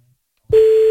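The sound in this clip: A phone line tone plays while a call waits for pickup. After half a second of silence, a loud, steady single-pitch tone starts abruptly and holds unchanged to the end.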